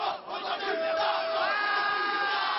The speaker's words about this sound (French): Autour, 200 jeunes, un comité d'accueil plutôt agité. Les premiers projectiles fusent avec les insultes.